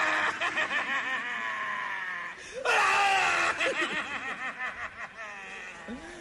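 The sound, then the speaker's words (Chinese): A voice imitates the loud wailing of a son mourning his father, crying in long, wavering, sobbing tones. After a short dip partway through, it breaks into a louder, harsher burst that trails off into pulsing sobs. “儿子哭爸爸， 惊天震地。 哎，您听他那声音， 嗯， 哭什么呢？哭我的老子， 爸爸是老子。”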